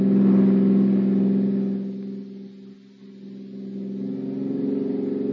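A car engine hums while driving: a steady, low, droning tone that drops in loudness near the middle, then swells back up and holds to the end. No one speaks.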